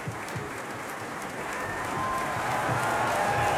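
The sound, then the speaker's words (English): An opera audience applauds a singer making her company debut, a dense wash of clapping that starts fairly soft and swells steadily louder toward the end. “The audience gives a warm welcome to Suzuki, sung by Sun Lee Pierce in her company debut.”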